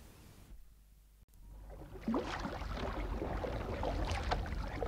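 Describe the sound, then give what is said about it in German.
Water splashing and sloshing as a light canoe is pushed out into a river. A quiet, near-silent start gives way to a steady rush of water with scattered splashes that continues to the end. “Mit aller Kraft stieß sie das leichte Boot hinaus in den Strom.”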